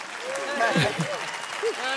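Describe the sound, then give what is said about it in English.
Audience clapping after a band is introduced, a moderate, steady patter of many hands under a voice that talks throughout. “Yeah, you can clap for that.”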